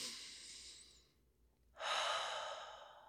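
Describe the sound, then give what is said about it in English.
A slow, deep breath in and out: a soft, airy inhale, a brief pause, then a longer, steady exhale, faint and heard alone without talk. “go ahead and take a nice deep breath with me.”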